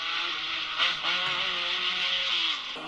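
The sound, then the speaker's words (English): A Stratos rally car engine running, a steady, rich droning hum with strong harmonic tones held throughout at moderate loudness, no talk. “That sounds good though. That's because it's a Stratos.”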